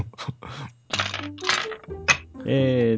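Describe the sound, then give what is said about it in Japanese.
Dice are rolled, giving a few short, clattering rattles in uneven bursts, with voices over and between them. “サイコロ振らないといかんね。”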